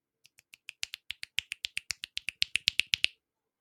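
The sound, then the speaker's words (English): Finger snapping, offered as thank-you snaps: many crisp, dry snaps in a quick, steady run. They start soft and sparse, then grow louder and slightly denser before stopping, with no talk over them. “That's my thank you snaps.”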